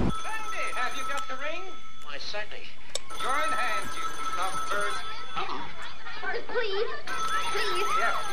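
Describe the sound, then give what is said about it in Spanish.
A telephone rings steadily beneath agitated, overlapping voices that talk throughout. “está sonando el maldito teléfono”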